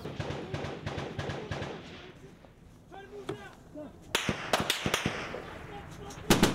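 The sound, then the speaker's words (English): Gunfire cracks during a firefight with Taliban fighters near a village in an Afghan district. Sharp, whip-like snaps come in irregular bursts, growing denser and louder toward the end, with voices faintly underneath. “They're shooting at us, they're laying down underneath blankets, and they pop up and start shooting.”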